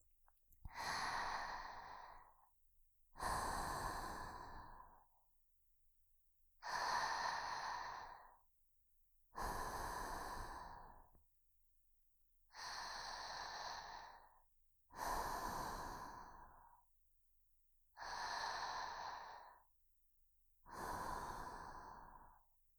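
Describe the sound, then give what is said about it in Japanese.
Slow, guided breathing in and out during a relaxation exercise: eight long, soft, breathy exhales at an even, unhurried pace, with quiet pauses between them. “吐いて。吸って、吐いて、一緒にやりましょうね。”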